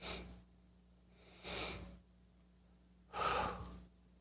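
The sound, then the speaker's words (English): Breathing exercise of two inhales through the nose and one exhale through the mouth: three separate breaths, the third the loudest and longest, with quiet gaps between them and no talking. “Two inhales through the nose and one exhale through the mouth. And that's all it is, right? So it's literally just this.”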